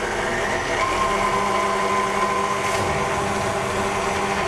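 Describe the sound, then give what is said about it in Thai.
Steady motor whir of an electric mixer whipping ingredients at low speed, a continuous even hum with a faint tonal whine and no breaks. “เพราะฉะนั้นเราก็ใส่ลงไปแล้วก็ตีนิดเดียวนะครับเบา ๆเพราะนี่มันขึ้นละไม่ต้องใช้ความเร็วสูงเนาะ เดี๋ยวเราจะตีอีกรอบนึงครับแล้วก็ค่อยๆขยับขึ้นครับ”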